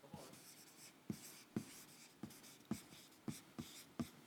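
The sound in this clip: Writing on a board: a run of short, scratchy marker-like strokes at fairly regular intervals, each a brief rasp with a soft attack. It is faint and heard alone, with no voices.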